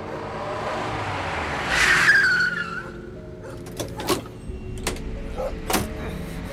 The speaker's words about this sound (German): Es dauerte nicht lange, da wurde diese jedoch durch ein nahendes Fahrzeug gestört.